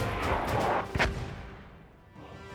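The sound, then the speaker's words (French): Mortar fire in a video game: a few booming blasts with a sharp, loud burst near the middle, followed by a fading rumble. “notre objectif est de contenir l'armée ennemie à l'aide de tirs de mortier. Alors mettez-vous en position et préparez-vous à tirer.”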